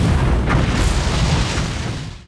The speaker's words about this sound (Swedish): jag tror det var hans raketer vi hörde där i slutet.